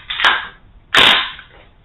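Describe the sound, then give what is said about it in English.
Two sharp, loud gunshots come from an AR pistol, each a hard crack with a short decaying tail. The second blast is fuller and rings slightly longer. “Next, we got a little AR pistol shooting an iron gun.”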